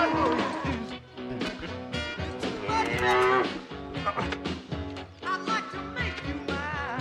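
Cow mooing while being loaded into a trailer: loud, drawn-out lowing calls follow one another through the whole clip, several bellows overlapping.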